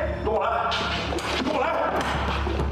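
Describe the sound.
Crate door being opened, heard as a few heavy thuds and a bang with a swishing movement, while people talk alongside.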